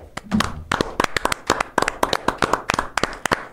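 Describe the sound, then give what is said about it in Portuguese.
Hands clap in a fairly loud, steady run of many sharp, crisp claps with an even rhythm throughout. “vamos bater palma. Temos que bater palma para a bancada evangélica.”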